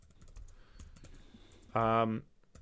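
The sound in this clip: Typing on a computer keyboard gives a scattered run of light key clicks, followed near the end by a short steady tone.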